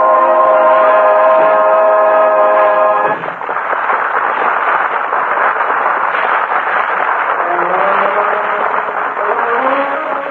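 Passenger railroad train jammed with passengers and baggage: a loud, continuous rushing rumble of the moving train, opened by a sustained chord-like tone that cuts off abruptly.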